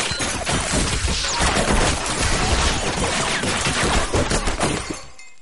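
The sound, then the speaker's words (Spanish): Gunfire in an action thriller film as shots from outside take down a hacker and a group of hitmen: a dense, loud, continuous volley of rapid shots that cuts off abruptly near the end. “Unos disparos del exterior abaten al hacker y a los sicarios de Lee.”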